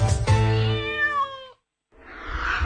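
A cat gives one long, clear, drawn-out meow. Near silence follows, then a burst of rough noise.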